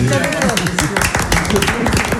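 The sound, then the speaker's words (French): Applause as a reception team claps for the office staff, a dense patter of hand claps running the whole time under loud overlapping voices. “Ils sont sport, vos camarades, juste à côté de l'équipe de l'accueil qui applaudit les gens des bureaux.”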